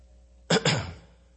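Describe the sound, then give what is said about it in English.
A man clears his throat in two quick, rough bursts, the second trailing off, fairly loud and alone. “And he cleared his throat.”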